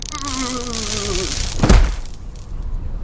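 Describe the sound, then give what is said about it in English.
An electric taser buzz with a dropping tone hits Thor in the 2011 Marvel film Thor, then a heavy thud lands midway before the sound settles into quieter background. “Thor gets tasered in the 2011 film there. Thor, Marvel film.”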